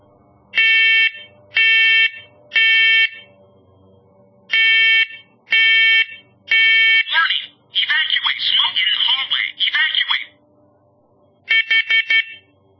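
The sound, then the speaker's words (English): Carbon monoxide detector alarm sounding during a press-and-hold test: two groups of three loud, harmonic electronic beeps, then a longer stretch of a voice announcement, and finally a rapid burst of four short beeps. “So I'm going to run the test again with the CO detector just so that we can make sure that you hear exactly what the CO detector says. So I'm going to press and hold.”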